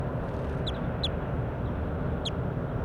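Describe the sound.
Birds call in brief, high chirps, three quick calls spaced unevenly, over a constant low rumbling background.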